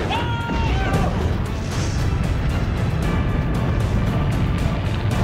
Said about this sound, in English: He's going to hit. There goes the rockets.